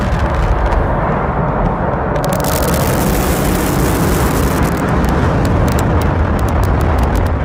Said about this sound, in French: Ce décollage, on a pu le suivre en direct de Cap Canaveral en Floride avec cette fusée SpaceX. 3, 2, 1, ignition and lift off.